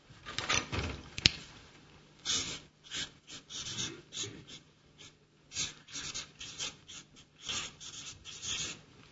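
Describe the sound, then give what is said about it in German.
Pen scratching on paper as someone writes something down by hand: many short, faint strokes in irregular bursts separated by brief pauses. “Ich schreibe das mal kurz auf.”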